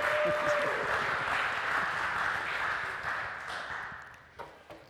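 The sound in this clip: Audience applause welcoming a guest speaker on Canada Day, dense steady clapping that gradually thins and fades out, ending with a couple of isolated light claps.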